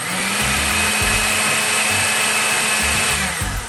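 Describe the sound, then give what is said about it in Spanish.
Kitchen blender puréeing a cooked recipe preparation: a loud, steady high motor whir over a lower churning rumble that dips and surges in an uneven rhythm throughout. “si prefieres una textura más cremosa, puedes licuar nuestra preparación. Hoy yo las licuaré.”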